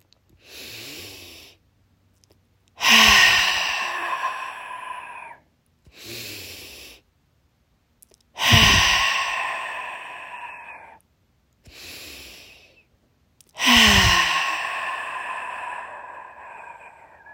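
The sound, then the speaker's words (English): Three deep breaths during a guided meditation, each a soft, airy inhale followed by a pause and then a long, loud, rushing exhale that slowly fades before the next breath. “we're going to take 3 deep breaths and pause at the top and exhale loudly and pause at the bottom”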